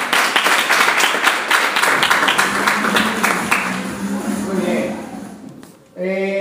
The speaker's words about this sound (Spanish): pues vamos a darle un fuerte aplauso a Álvaro